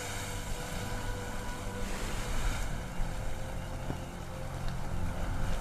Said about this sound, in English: Waves break as they roll into a beach with land stretching out in front of them.